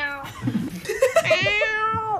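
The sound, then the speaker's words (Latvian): A man imitates a cat's meow: a few low throaty sounds give way to a drawn-out vocal meow that climbs in pitch, then holds and gently falls. “ka es mājās ņaudu. Šitā. Tas jau ir citādāks mjaudiens.”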